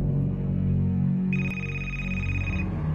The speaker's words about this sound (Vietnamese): Chuông điện thoại của nó đổ.